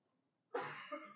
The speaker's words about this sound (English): I'm sorry, I can't keep my throat clear.